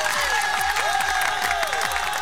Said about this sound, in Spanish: Aplausito, ve aplausito.